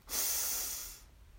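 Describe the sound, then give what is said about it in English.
A single deep breath, a soft airy hiss lasting about a second before fading to quiet. “Breathe in and out.”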